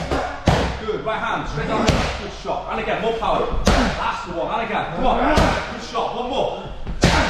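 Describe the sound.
Boxing punches, jabs and right hands, strike training pads in a series of sharp, heavy thuds at an uneven pace, with talk running throughout.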